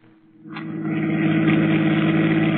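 A car engine rumbles while driving, swelling from a quiet start into a loud, constant droning hum that holds steady to the end.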